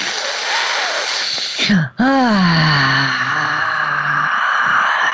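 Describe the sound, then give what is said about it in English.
Deep, loud breaths drawn up from the toes, as in labor breathing, used to help milk letdown. The steady breathy rush briefly dips, then returns with a moaning voiced tone that slides downward in pitch and fades back into breath. “Can you feel me taking those breaths all the way up from my toes?”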